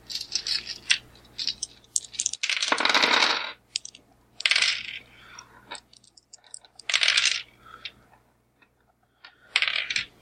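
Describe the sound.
Dice rolled during a tabletop role-playing game: a few short, bright clattering bursts separated by quiet gaps, each rattle crisp and fairly faint.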